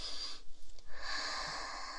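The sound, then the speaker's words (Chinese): A deep sniffing breath drawn through the nose with the head buried in something to smell it, heard as a faint, breathy rush with a couple of short snorting pulses. “在你的鼻子下面闻一闻。对，把头埋在里面深呼吸闻，”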